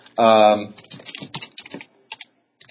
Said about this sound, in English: If you go to a site, I'll type this in so you can copy and paste.